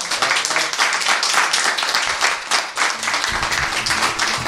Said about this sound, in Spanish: Un aplauso para todos ustedes.